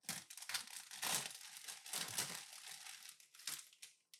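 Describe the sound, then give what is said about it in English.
A bag of pretzels is crinkled and torn open, giving a dense, faint run of crisp plastic rustles and crackles with a few louder bursts, and no talk. “Don't crush my pretzels. Open it. Yay, pretzels.”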